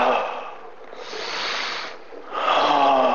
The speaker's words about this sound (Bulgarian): Можеш да поемеш дълбоко дъх и да го издишаш. И пак. Дълбоко и да го издишаш.